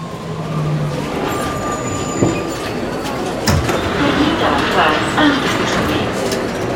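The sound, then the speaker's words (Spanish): A train rumbles and clatters steadily as it arrives at a terminal station, with a low mechanical drone and a few sharper knocks and squeals over it. “Estación terminal. Se solicita a todos descender del tren.”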